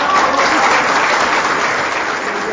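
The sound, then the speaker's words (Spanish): Enthusiastic applause from the audience after a chamber orchestra concert, a thick, steady roar of many hands clapping that stays loud and unbroken for about two and a half seconds. “este merecido aplauso, igual para los compañeros y compañeras de la camerata.”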